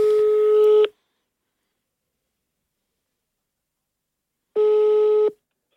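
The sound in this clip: Telephone tones on an outgoing call: two steady, mid-pitched electronic tones of under a second each, separated by a long silence.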